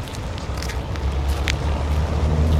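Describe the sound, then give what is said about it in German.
A car driving off produces a steady, low engine rumble and road noise, with faint crackles on top of a continuous, slightly swelling hum. “Egal, ich fahre jetzt mal hin.”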